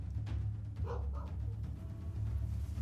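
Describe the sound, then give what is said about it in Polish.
Faint dog barking from two dogs in the distance along a road: a few short yaps, barely above a steady low hum, with no talk. “Jakiego, jakie szczekanie? Gdzieś z traktu. Wiele psów? Dwa.”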